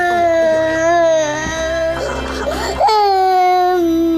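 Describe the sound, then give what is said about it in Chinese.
A young daughter crying loudly, with sustained high wailing tones. A rougher, sobbing break comes midway before the wail resumes. “好了好了，不哭了不哭了啊！”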